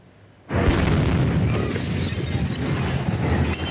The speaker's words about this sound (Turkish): Bolivya'da askeri kışlada yanıcı maddelerin tutulduğu depoda patlama meydana geldi.